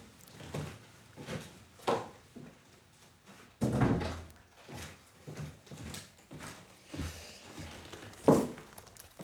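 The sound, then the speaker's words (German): Thumps and knocks of a window being shut against incoming rain, a series of irregular bumps and a louder clunk near the middle, with faint rustling between, no speech. “Ich muss mal ganz schnell mein Fenster zumachen, weil es reinregnet.”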